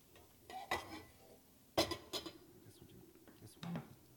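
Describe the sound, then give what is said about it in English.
Faint clinks and knocks of cookware as a frying pan is handled for cooking, a few sparse metallic taps spread out over quiet background. “So next we need a pan hot with some oil. Okie dokie. Pan hot with some oil.”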